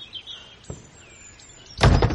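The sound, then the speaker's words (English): Someone bangs on a door to be let in: a single faint thud early on, then a few loud, heavy blows in quick succession near the end. “Oh, let me in, Abel! Open the door, it's my only way home!”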